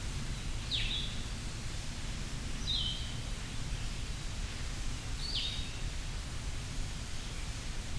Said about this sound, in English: Much sweeter sounding Vireo.